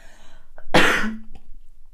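A single loud, abrupt cough with a short, low, voiced tail that sounds like the throat clearing. It is brief and heard alone against near-silence.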